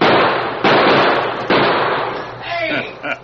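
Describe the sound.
Gunshots fired close by during an ambush in a Western scene: three loud, sharp blasts spaced unevenly across a couple of seconds, each trailing off in a long, rumbling decay.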